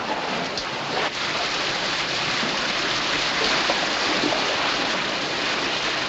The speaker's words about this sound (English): Lawrence uses a blanket to try to stem the water pouring through the hole made by the torpedo.